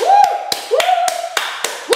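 Hand claps demonstrated by one person: seven sharp, evenly spaced claps in a steady rhythm over a sustained sliding tone.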